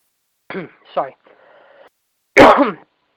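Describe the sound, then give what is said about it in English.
Throat clearing, as if something is caught in the throat: two short voiced grunts, a faint buzzy stretch, then a louder, harsh rasping clear near the end. “excuse me, something in my throat there”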